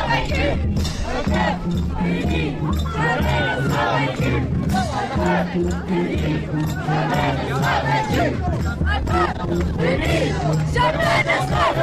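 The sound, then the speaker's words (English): A crowd of protesters chants in the street, a loud, unbroken mass of voices with rhythmic shouted phrases rising over steady babble. “Meanwhile, on the other side, in the street, there's still a lot of people, and they're chanting and playing music”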